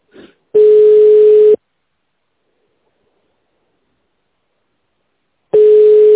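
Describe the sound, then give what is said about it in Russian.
A telephone ringback tone plays while a call is transferred to an operator: two loud, steady single-pitched tones of about one second each, separated by a long stretch of silence. “Ждите на линии, пока выполняется перевод вызова оператору.”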